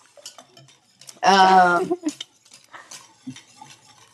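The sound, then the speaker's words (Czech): A utensil stirs Greek yogurt in a dish, giving soft scrapes and a few light clinks. A short burst of voice rises in the middle, and scattered small knocks follow. “Tak, míchejte tam... řecký jogurt.”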